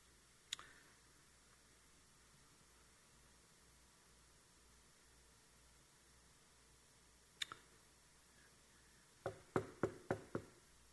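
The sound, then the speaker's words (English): Faint knocking at a front door: a single knock, a close pair several seconds later, then a quicker run of several knocks at the end, each a sharp, brief tap against quiet background hiss. “As they pray, you hear this knock at the door. There's a neighbor lady at her front door.”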